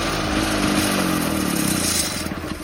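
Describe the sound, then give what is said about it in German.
Engine of a Trabant car running: a steady, loud, buzzing drone that holds throughout and eases off slightly at the end. “Hey, der Trabi war das.”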